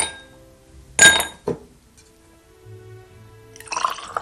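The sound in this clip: Glasses clink as whisky is served: one sharp, bright clink, a lighter second one, and after a quiet stretch a cluster of small glassy clinks near the end.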